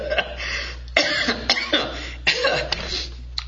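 Someone coughs repeatedly with something caught in the throat: a few harsh, uneven bursts spread over a few seconds, fairly loud against a quiet background.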